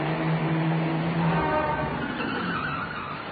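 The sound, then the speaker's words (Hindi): A car approaching, a dense, steady roar of engine and tyres that holds level, then eases slightly toward the end. “एक और car आ रही है।”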